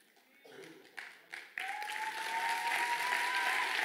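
A church audience applauds during a sermon. A few scattered claps come first, then the clapping swells into steady, full applause that grows a little louder toward the end.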